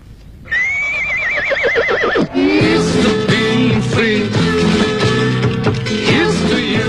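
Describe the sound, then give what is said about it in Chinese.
A horse whinnies with a long, high, wavering neigh as a rider mounts, then its hooves clip-clop in a steady rhythm as it rides off. “提亚哥骑上他的马独自走了，这位浪迹天涯的朋友又要到哪儿去呢？”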